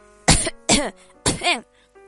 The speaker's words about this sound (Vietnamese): Nàng siết chặt tay thành hình nắm đấm, đặt bên miệng ra sức ho khan.